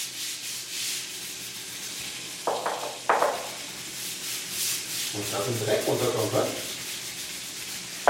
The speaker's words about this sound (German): Den Badboden hat in den vergangenen 20 Jahren augenscheinlich noch niemand so richtig geschrubbt. Schon gar nicht auf Knien, mit Spezialfliesenreiniger und Scheuerbürste.